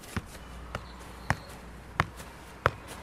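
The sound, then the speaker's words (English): Five dull ball taps as a 68-year-old man juggles a soccer ball keepy-uppy style. The knocks come at a roughly even pace, about every half second or so, over a steady low background hiss. “He's still juggling soccer balls.”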